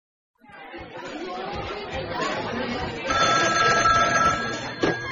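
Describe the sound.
A telephone rings with an incoming call, a steady bright ringing tone that emerges partway through over a busy bed of background chatter and voices.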